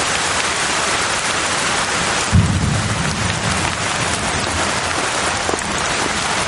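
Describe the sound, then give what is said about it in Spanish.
Heavy rain pours in daylight, a steady dense hiss that runs unbroken through the whole clip, with a low rumble of thunder breaking in about a third of the way through and fading beneath the downpour. “bajo la intensa lluvia a pleno luz del sol”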